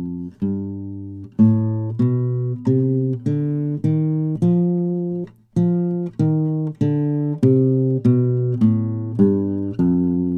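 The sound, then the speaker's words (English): A Lydian dominant scale in F is picked on guitar as a run of many single notes at an even, moderate pace. Each note rings briefly and decays before the next, with no talking. “So if I play that on guitar, it sounds like this.”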